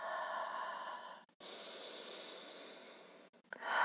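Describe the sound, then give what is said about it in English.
Deep breathing during a yoga rest in child's pose: long, steady airy hissing breaths, broken by two brief pauses, with a shorter rushing breath at the end. “Good, nice deep breaths.”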